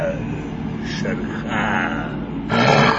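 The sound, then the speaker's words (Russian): Tiger roaring in a cave: a deep, sustained rumbling growl that holds steady and then swells louder near the end. “Рев тигра наполнил пещеру громовыми раскатами.”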